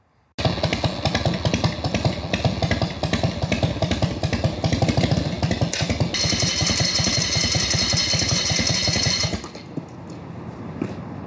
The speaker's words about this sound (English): Here's what happens if you leaned the wrong way and your foot slips off of that clutch pedal.